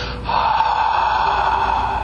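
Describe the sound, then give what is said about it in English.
A constricted-throat breath, a hoarse whispered hiss like fogging up a mirror, made by tightening the back of the throat. It starts after a brief moment and holds steady and fairly loud for about two seconds, with no talking. “it's a whisper that you create in the back of your throat by constricting your epiglottis. It sort of sounds like Darth Vader breath, or it would be the sound you make if you're trying to fog up a mirror.”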